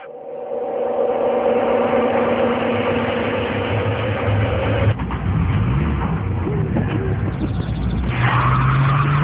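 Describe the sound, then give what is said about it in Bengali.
A car engine roaring as the car is started and driven off quickly, with skidding tire noise over a continuous, loud engine sound throughout. “দ্রুত তার গাড়িতে উঠে গাড়ি start দিল”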